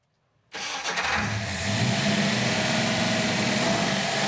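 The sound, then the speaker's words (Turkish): A carbureted engine with freshly fueled carburetor and adjusted jet starts up: after a short silence the starter cranks briefly, the engine catches, and it settles into a steady, even idle to the end. “Karbüratöre yakıt koydum. Jigle ayarlandı, marşa basma vakti. Basalım.”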